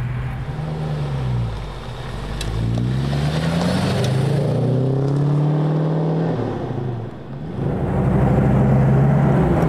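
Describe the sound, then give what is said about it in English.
A 1920s car engine runs on its hand throttle after starting, a loud, steady, deep rumble whose pitch swells and dips as the revs shift, heard alone without voices. “Turn the ignition on. Set the hand throttle. And there it is.”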